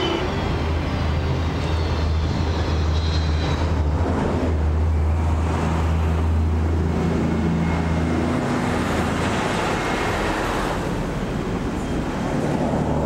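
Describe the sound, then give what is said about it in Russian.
Cars and buses driving along a road to an airport make a steady, continuous traffic rumble with a broad hiss of tyres and engines, unbroken throughout and with no voices. “Дорога к аэропорту. По дороге едут автомобили, автобусы.”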